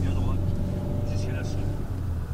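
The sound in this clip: A car driving at normal speed on a country road gives a steady low engine hum and road rumble throughout, with people talking quietly over it.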